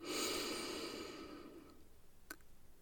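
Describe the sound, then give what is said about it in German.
A slow, soft breath during a relaxation breathing exercise, inhaling through the nose and exhaling through the mouth. It is a faint, airy exhale that fades gradually toward near silence. “Atme durch die Nase ein und durch den Mund aus. Einatmen”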